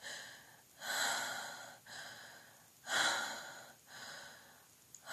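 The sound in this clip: Heavy breathing from someone catching their breath: several deep, rhythmic breaths, each rushing in and out with a breathy hiss, two of them noticeably louder than the rest, with no talking.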